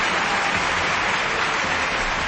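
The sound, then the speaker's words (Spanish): Sustained applause opening a programme, a continuous, even wash of dense clapping with no gaps, swells or voices. “Fuerte el aplauso.”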